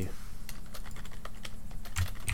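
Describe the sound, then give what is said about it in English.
Rapid typing on a computer keyboard as someone enters a search term. Many quick, light keystrokes run in a steady stream over a low hum. “I had to type in Cookie Monster.”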